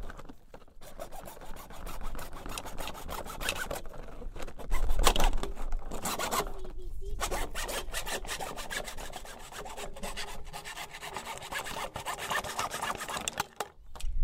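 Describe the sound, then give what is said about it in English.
Steady rasping saw strokes cut the bottom off a plastic bottle, with many quick back-and-forth passes running throughout and no talk. “If you're using the bottle, you like cut the bottom off it.”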